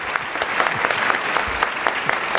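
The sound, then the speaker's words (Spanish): Audience applause greets two guests who voiced Lord and Lady Macbeth, a dense, steady wash of many hands clapping at an even, fairly loud level throughout, with no voices standing out above it. “el aplauso para tus dos invitados de hoy”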